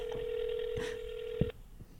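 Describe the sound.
A phone call rings through a speakerphone held up to a microphone: one long, steady, mid-pitched ringing tone that cuts off abruptly, followed by low background noise.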